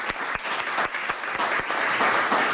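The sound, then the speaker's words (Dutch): An audience applauds the winner of a yearly prize with dense, sustained clapping that holds at an even, lively level throughout. “Laten we allemaal een groot applaus geven aan een winnaar van dit jaar”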